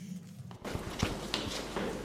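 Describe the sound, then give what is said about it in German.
Footsteps of a small group following a guide deeper into a pyramid: a near-silent moment, then a few irregular, soft steps and scuffs, each fairly distinct, with no talking. “Die 5 folgen dem Guide immer tiefer in die Pyramide. Achtung, ihr müsst ein bisschen aufpassen, wo ihr hintretet.”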